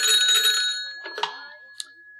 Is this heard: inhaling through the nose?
no